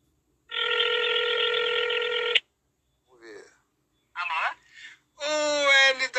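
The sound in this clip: A single phone ringback tone of an outgoing call sounds for about two seconds, a steady buzzing tone, then breaks off into short bursts of voices.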